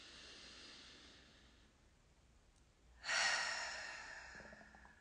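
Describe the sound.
A deep breath drawn in during a guided group breathing moment: a faint breathy hiss, then a sudden louder rush of air that slowly tapers off, with no talking.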